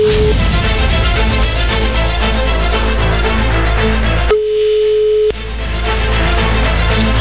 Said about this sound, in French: On va tenter une nouvelle fois ailleurs, à un autre endroit, sur un autre numéro et on va voir si ça décroche.